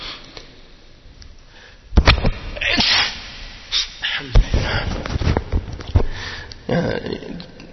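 A sudden sharp sneeze bursts out during a French-language Islamic lecture, followed by a few sniffs and rustling noises. The sound is loud and abrupt after a quieter stretch.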